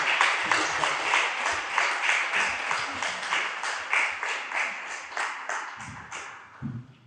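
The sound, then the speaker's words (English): Audience applause welcoming a speaker: many distinct claps in a lively, uneven patter that thins out and fades toward the end. “Let's put our hands together to welcome her.”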